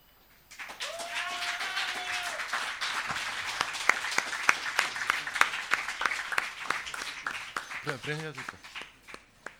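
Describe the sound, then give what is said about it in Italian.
Audience applause at a poetry slam: dense, sustained clapping that begins abruptly, holds steady and then thins out toward the end, with voices speaking briefly over it. “Tommaso Russi, sì, un altro applauso, non fa mai male.”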